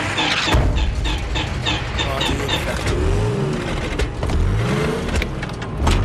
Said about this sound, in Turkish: Çalıştır bakayım. Motor ısıt, soğumuş.